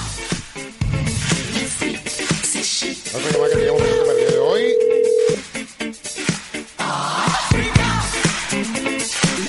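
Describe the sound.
Ringback tone of an outgoing telephone call: one steady, mid-pitched ring lasting about two seconds, set amid busy, clattering background sound.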